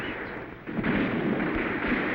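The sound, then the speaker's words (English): Cannon fire during a battle to take a hill: a dense, rumbling barrage that swells suddenly in loudness, with a few deep booms standing out from the sustained roar. “I thought you silenced that cannon.”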